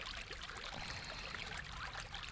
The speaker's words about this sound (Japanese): 集落のそばにあるような小さな川ではなく、森や山中にあるような自然に近い川です。